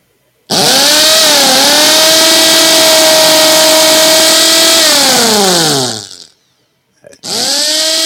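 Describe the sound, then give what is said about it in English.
Motor whine of an old brushed electric drill: a loud, steady buzzing hum that holds for about five seconds, winds down in pitch into silence, then starts up again briefly. “It is an old electric drill. Wait a minute, run that again. Oh. An old electric drill. With the brushes.”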